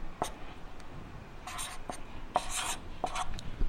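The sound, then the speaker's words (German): Pen or pencil writing by hand on paper, with scratchy strokes coming in a few short bursts separated by brief pauses. “Ich schreibe es mal dabei.”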